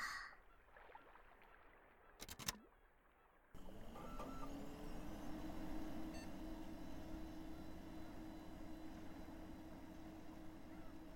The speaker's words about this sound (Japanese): 準備ができたので早速胃の X 線検査をいたしましょうか。機械を起動してっと。